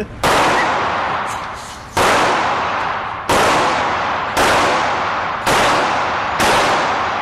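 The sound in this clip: Loud gunfire from a machine gun rings out in six harsh, crackling bursts, each striking sharply and then trailing off in a long noisy decay before the next blast.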